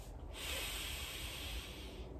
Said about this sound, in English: You might want to close your eyes. Take a deep breath.